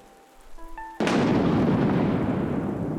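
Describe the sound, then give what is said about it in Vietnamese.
A sudden, sharp thunderclap splits the rain, bursting in at full force and then holding as a loud, broad rumble and hiss of rainfall, after a quieter opening with faint tonal sounds. “Một tiếng sét vang lên trong màn mưa khiến cho Nam giật mình ngồi bật dậy.”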